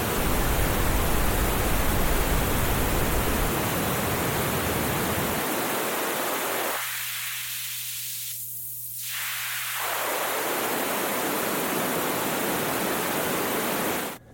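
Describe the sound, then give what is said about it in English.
Pink noise test signal runs through a high-pass filter: a steady, full-band hiss whose low end drops away partway through as the filter cuts the bass. It stays at an even level throughout, with no talking. “so I'm using pink noise because it's got all frequencies.”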